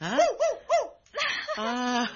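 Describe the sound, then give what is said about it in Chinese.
A small dog gives three quick, high yips in a row. A person then speaks to it. “龙狗，龙狗啊，你以后就跟住朕，朕去哪里都带埋你去，咁样好唔好啊？”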